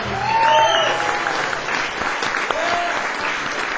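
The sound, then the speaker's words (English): An audience applauds a banjo player, a Berklee banjo professor being introduced at a concert, with a steady, full wash of clapping and a couple of whistles rising above it. “Give a big hand for Wes Corbett.”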